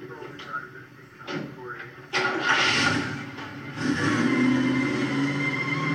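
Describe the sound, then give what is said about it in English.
A 160-horsepower Chevy Camaro engine revving and accelerating into a sustained, growing roar, with people talking over it. “Oh shoot, that 160 horsepower Chevy Camaro.”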